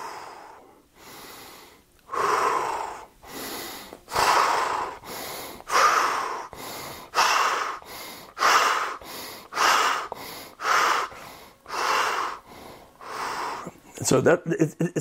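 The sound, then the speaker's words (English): Vigorous breathing, in through the nose and out through the mouth, demonstrated as a breathing exercise: many loud, regular breaths follow one another at a steady pace, turning quicker and choppier near the end. “But I'll just give you a quick demonstration. So breathe in through the nose, out through the mouth.”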